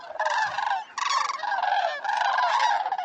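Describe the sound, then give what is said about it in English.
Sandhill cranes calling as a flock at a southern wintering ground in New Mexico: many overlapping rolling, trumpeting calls form a loud, continuous chorus that dips briefly about every second before swelling again. “sandhill cranes are common as ants at a picnic. The largest population breeds in Canada and Alaska. Afterward, they gather in the thousands at southern wintering grounds, like this flock in New Mexico.”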